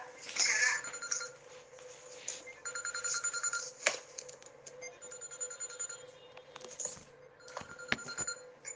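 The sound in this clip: A mobile phone rings in the audience during a spoken lecture. Its electronic ringtone repeats in short melodic bursts at moderate loudness, with a few soft knocks in between.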